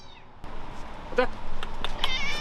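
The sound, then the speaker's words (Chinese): A cat meows at a door in the rain, giving a few short, high, fairly faint cries over a soft, steady background hiss. “因为下雨，大多数猫都在屋里待着，但有一只猫猫每次樊正硕过来总会等在门外迎接他。”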